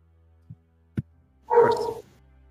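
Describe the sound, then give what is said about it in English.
A stray dog in a hall gives one rough, harsh bark lasting about half a second, preceded by two brief, soft knocks. “He, that dog's back.”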